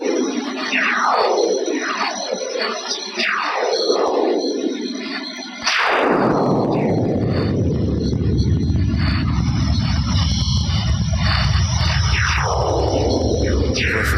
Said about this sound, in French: ce qu'on vient d'entendre, c'est en fait une transcription audio de ce qu'on appelle des sursauts radio de notre étoile